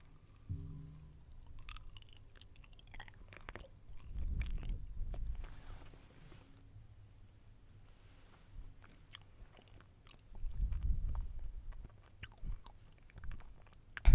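Someone chews and eats a sweet, ripe banana with soft, wet munching. Two separate bouts of chewing come through, with small clicks between them. The sound stays quiet, with no talk.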